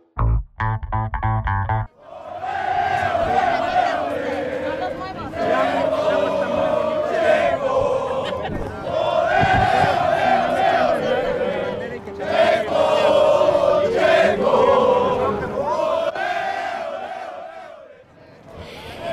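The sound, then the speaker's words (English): A loud, passionate crowd of Mexican fans cheers and chants at a car race, a sustained roar with repeated swells. A few short bursts open it before the cheering takes over. “loud and passionate contingent of the Mexican fans here at the race cheering”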